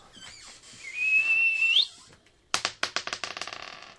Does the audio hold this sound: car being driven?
no